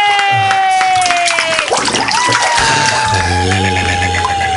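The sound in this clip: Crowd cheering and applauding as a comedian takes the stage at a comedy show, a loud, continuous wash of shouts and clapping that keeps going throughout.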